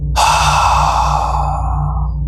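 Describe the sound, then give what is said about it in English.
A long, deep exhalation through the mouth during a guided breathing exercise. The steady, breathy rush lasts about two seconds and slowly fades away. “Taking one deep breath with me in through the nose. Hold at the top. And letting go through the mouth.”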